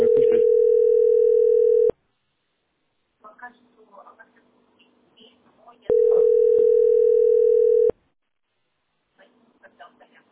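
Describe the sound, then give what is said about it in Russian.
A telephone ringback tone while placing a call: two steady, mid-pitched tones of about two seconds each, separated by a pause filled with people talking. “Я там говорю, алло, продолжаю дозвон.”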